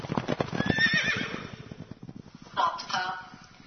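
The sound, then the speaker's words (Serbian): A white horse neighs in a loud, shrill whinny that wavers in pitch, followed moments later by a second, shorter whinny. “Možemo reći beo, da je ovaj konj beo, jak, brz, hitar, snažan.”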